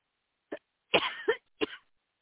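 Coughing and throat clearing from someone with a tickle in the throat: three short, rough bursts, the middle one longer with a second push, heard alone with no talk.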